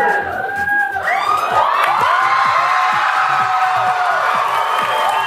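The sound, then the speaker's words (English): A studio audience at Saturday Night Live cheers and screams for a surprise cameo. High whoops and shrieks hold a loud, continuous roar throughout. “The audience went nuts for this surprise cameo that happened.”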